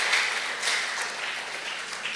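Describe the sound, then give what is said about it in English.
An audience applauds at a school worship gathering, producing a steady, dense wash of hand clapping that stays at an even level throughout without any talk over it. “Let's give them a hand clap.”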